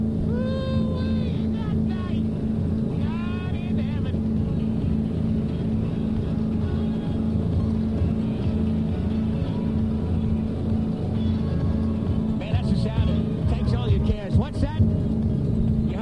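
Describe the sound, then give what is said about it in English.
A motorboat engine runs at full throttle as it leaves a marina, a loud, steady, low drone throughout. Voices come in briefly over it at the start and again near the end. “You just turn the corner of the marina and then firewall them throttles.”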